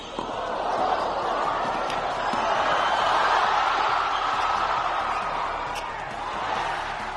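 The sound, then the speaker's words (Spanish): Crowd noise fills a packed arena at a recent basketball game in Australia: a steady, dense roar that swells gently through the middle and then eases, with a few faint sharp knocks over it. “No es sonido ambiente, no es tampoco un partido de hace un año, es partido de las últimas horas en Australia. El estadio, la pista, llena de público”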